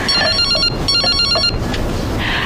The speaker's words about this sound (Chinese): 接个电话。